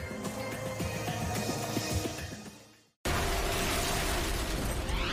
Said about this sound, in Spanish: Una serie de explosiones desgarra la ciudad de Nueva York.